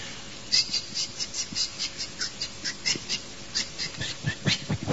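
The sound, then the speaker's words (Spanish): Canary song: many quick, bright chirps and trills in a steady, rapid run of short bursts, with no voices. “¿Cómo canta el canario este?”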